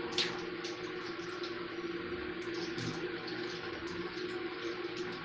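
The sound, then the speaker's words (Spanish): Tap water runs steadily while someone brushes their teeth, a faint, even hiss and trickle with no breaks and no talk. “Y me lavo los dientes.”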